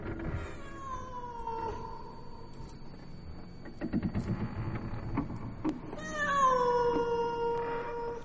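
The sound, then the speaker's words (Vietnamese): A cat meowing eerily at night on a porch: two long, wavering, mournful cries with harmonic overtones, separated by scattered faint knocks and rustles, with no talk. “khi không nửa đêm nửa hôm lại có tiếng mèo kêu. Lão sợ lắm, nhưng cũng tò mò, có con mèo không biết ở đâu xuất hiện, cứ đứng ở ngoài hiên, kêu lên những tiếng ghê rợn thảm thiết.”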